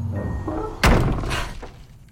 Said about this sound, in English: The door swings shut behind her.